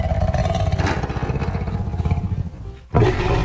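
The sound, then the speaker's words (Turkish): A wild lion roars, a deep, rumbling call with a rapid, pulsing texture. The roar sustains for a couple of seconds, drops away briefly, then returns loudly near the end. “Aslan kükremesi 114 desibele kadar çıkabilir ve 8 kilometreye kadar uzaktan duyulabilir.”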